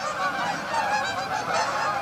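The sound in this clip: A flock of geese honking by a river, with many overlapping nasal honks and calls forming a continuous, busy chorus for the whole stretch.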